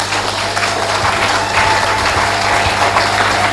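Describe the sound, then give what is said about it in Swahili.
Audience applause at an investment talk: a dense, steady clatter of many hands clapping that holds at an even, loud level throughout, with no voices. “Hebu naomba tumpigie makofi.”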